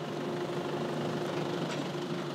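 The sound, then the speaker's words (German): Steady low drone of a tugboat engine towing a ship slowly out of a harbour, a continuous even rumble with no breaks or changes in loudness. “Da heißt es nämlich Leinen los für das nächste Schiff, das jetzt mit dem Schlepper langsam aus dem Hafen gezogen wird.”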